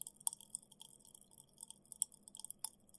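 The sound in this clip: Quiet chewing of food, with soft moist mouth sounds broken by a few sharp, crisp crunches, and no talking.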